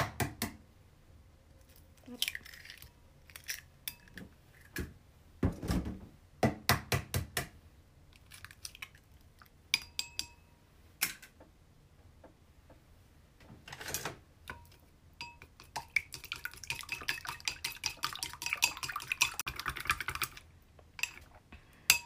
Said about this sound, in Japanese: はい、で先に溶き卵を作ります。